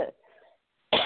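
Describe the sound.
A person with a cold coughs twice, each a short harsh burst, separated by a brief pause with a faint breathy sound; quiet overall.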